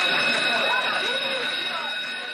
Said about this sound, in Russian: И вот, наконец, долгожданный первый звонок. Дан старт новому учебному году и новым достижениям.